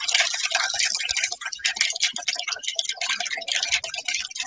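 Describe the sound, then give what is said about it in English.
A bar spoon stirring a cocktail made with Angostura bitters, a rapid run of many light, bright ticks and clinks against the glass, steady and unbroken. “Let me get my bar spoon. That'll be better. Okay. Yeah, I'm just going to stir this for a moment.”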